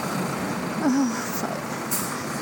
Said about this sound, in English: the driver won't let me on.